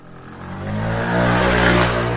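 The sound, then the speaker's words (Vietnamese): Car engine accelerating as the car swerves and turns on a road at night, a steady mid-pitched roar and whir that builds in loudness and then holds, with no voices. “Hắn đột ngột bẻ tay lái rồi quay xe lao tới chỗ quen thuộc.”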